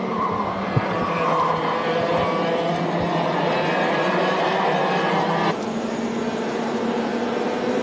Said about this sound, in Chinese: 赛道开放之后呢，车手们是第一时间驶上赛道来进行排位赛的一个争夺。